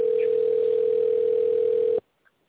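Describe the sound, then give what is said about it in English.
A loud telephone ring tone sounds as a steady, single-pitched electronic tone held for about two seconds, then cuts off abruptly into near silence. “Man, that's a loud ring.”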